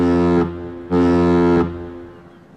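A boat's horn sounds as the vessel is about to leave: two loud, sustained, deep blasts with a rich harmonic tone and a short gap between them, with a low hum remaining after.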